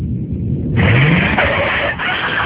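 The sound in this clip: A car driving as its engine revs, a rising whine climbing in pitch after a quieter start. A loud, steady motor roar then carries on to the end.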